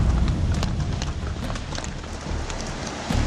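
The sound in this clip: Horse hooves clop unevenly over a rough, rocky mountain path where there is hardly any trail. Many irregular, muffled steps sound over a constant noisy background patter.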